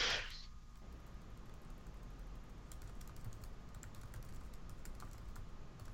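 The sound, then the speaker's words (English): Typing on a computer keyboard: many rapid, faint key clicks tap out irregularly over a steady low background hiss. “I apologize for the amount of time it's taking me to type this.”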